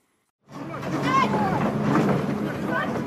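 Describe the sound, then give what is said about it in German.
Engine rumble of a tracked excavator crawling slowly on its tracks along a snow-covered path, a steady low drone that starts abruptly and continues with voices mixed in. “Ein Bagger wälzt sich auf Ketten langsam einen mit Schnee bedeckten Weg entlang. Dann stoppt er und fährt wieder an.”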